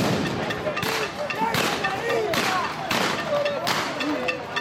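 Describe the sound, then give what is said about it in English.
Stun grenades blast at a violent street demonstration in Caracas where security forces also fire tear gas. Several sharp, booming explosions punch through a constant roar of crowd noise and shouting voices. “Venezuelan security forces are fighting back with tear gas and stun grenades sound here from a demonstration that turned violent in Caracas earlier this month.”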